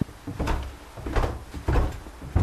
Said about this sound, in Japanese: 黒い大きい扉が、 はい、 あ、これ鉄製の扉ですかね。 そうです。 重い。